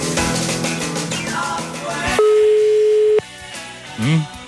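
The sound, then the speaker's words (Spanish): A telephone ringback tone on a call that goes unanswered: one steady, unbroken tone of about a second follows music and is cut off sharply. “¿Hace cuánto no pasaban tantos timbrados sin contestar?”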